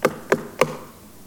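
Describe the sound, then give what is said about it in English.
Knocking on a door: three sharp, evenly spaced raps, each clear and moderately loud, with nothing else around them and a short quiet stretch after the last. “I stand at the door," Jesus says, "knocking. If you hear the knock, open the door.”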